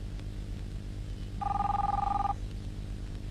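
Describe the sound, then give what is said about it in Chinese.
A telephone rings in a dramatic scene: one burst of fast, trilling electronic bell, about a second long, rising clearly above a quiet low hum with no voices. “你不想接电话？”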